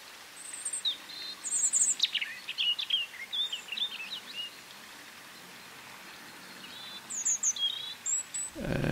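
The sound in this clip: A European robin sings in winter: faint phrases of thin, high warbling notes come in short bursts with brief pauses, over a steady soft hiss.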